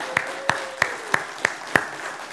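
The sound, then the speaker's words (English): An audience claps at a church service, six loud, evenly spaced claps at a steady rhythm over a low background murmur. “Let's give a round of applause for Josie”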